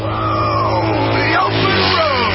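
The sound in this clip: A motorcycle engine roars loud and steady throughout, its droning tone wavering and sweeping up and down in pitch.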